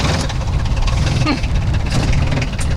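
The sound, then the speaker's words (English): A Bobcat utility vehicle engine puttering while touring a 1,000-acre farm: a low, rumbling idle that holds steady and loud from start to end. “she took me on a tour of the 1,000-acre Conant farm in a bobcat vehicle.”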